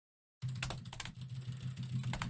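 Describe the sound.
Typing on a computer keyboard during an online game session: a steady stream of many quick, soft key clicks begins after a short silence, over a low, constant hum.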